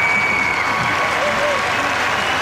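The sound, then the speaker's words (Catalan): A crowd cheers and applauds as the Pope appears on an elevated esplanade in front of the Nativity façade. The noise is a dense, steady roar with a voice speaking over it. “Mira, ja surt el papa i sentim la reacció de tot el públic que ha vingut a viure aquest moment.”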